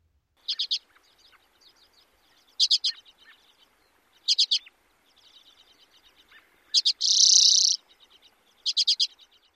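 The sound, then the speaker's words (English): Chatter calls of common redpolls: short, dry, high-pitched bursts of rapid notes repeated every couple of seconds, with faint twittering between them and one longer, buzzy note near the end. “All About Birds says common redpolls form chattering flocks characterized by three main calls. A chatter, which sounds like this.”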